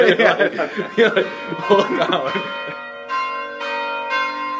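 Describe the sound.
Hand-rung church bells at a monastery sound after a person talks and chuckles, giving a few separate strikes with long, bright, humming tones that overlap and fade into one another.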